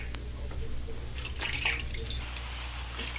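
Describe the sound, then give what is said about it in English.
Water splashes softly as someone's feet are washed by hand. Faint drips and small trickles come and go over a steady low hum. “He's washing my feet like a common servant.”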